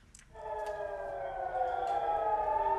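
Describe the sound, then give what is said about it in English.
Air raid sirens wail over northern Israel during a missile strike, a steady droning tone that swells in after a brief quiet start and holds, fairly faint, to the end. “you can hear there those sirens going off over northern Israel earlier”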